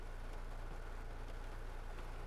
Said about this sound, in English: That is the sound of pouring, driving rain.